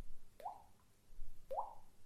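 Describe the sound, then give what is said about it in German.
A voice imitates a water drip, making two separate wet plops with a quick upward-sweeping pitch, spaced about a second apart over faint background noise. “Ich soll dieses Tropfengeräusch machen.”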